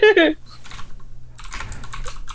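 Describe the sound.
Typing on a computer keyboard, a fast run of light plastic clicks and taps that follows a brief burst of voice at the start.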